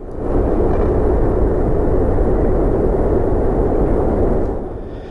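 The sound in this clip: Gunpowder barrel explosion blowing apart a convent: a dense, loud roaring rumble that swells quickly, holds steady for about four seconds and then eases off at the end.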